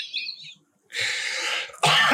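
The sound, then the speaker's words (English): Coughing from a person at a breakfast table comes in two rough, breathy bursts. The second burst is louder and is cut off at the end. “You done coughing?”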